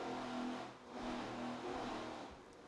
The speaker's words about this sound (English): Just listen to the boat run. It sounds so strong. The engine's performing flawlessly and hitting the throttles just perfect every time.